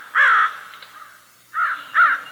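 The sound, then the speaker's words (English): A crow caws in three harsh, raspy calls, the first longer and separated by a pause from two quicker ones, with faint background noise between. “Some people object to wake-up calls when it's 4:30 a.m. and it's a crow doing the calling.”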